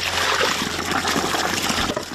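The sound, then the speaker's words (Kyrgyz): Water sloshing in buckets as a woman carries them by hand on a daily trip. A steady, continuous splashing wash holds an even level throughout, with no voices. “Кошкөлү келин ушинтип сууну күнүгө чакалап ташып келет.”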